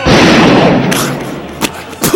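A single loud gunshot bursts out at the start and trails off in a long decaying rumble, followed by a couple of fainter thumps.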